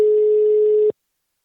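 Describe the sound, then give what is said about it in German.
A single telephone ringing tone sounds while a call is placed: one steady, loud mid-pitched beep lasting just under a second, then silence. “Wir klingeln mal durch.”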